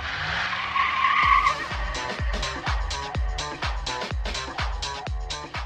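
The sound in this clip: Car starting up and driving off, a whining rush at first, then a long run of many evenly spaced, punchy low thumps with bright crackling tops, fairly loud and without voices.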